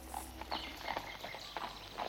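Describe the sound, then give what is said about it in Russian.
Hooves of a horse ambling along a forest path, a quiet, steady run of soft clip-clop beats at an unhurried pace over a low background hiss. “Так, верхом на одной лошади, Робин отправился со своей матерью в путь длиной в 45 миль. Двигались они неспешно. Лошадь легкой иноходью трусила под сенью густого леса.”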